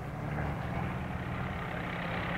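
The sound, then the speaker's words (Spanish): Heavy engines rumble steadily as trucks carrying huge pipes arrive with tractors and excavators, a constant low drone with no distinct separate events. “¡Miren! ¡Camiones! ¡Tuberías! ¡Unas tuberías enormes! ¡Esos que vienen detrás son tractores! ¡Y máquinas excavadoras!”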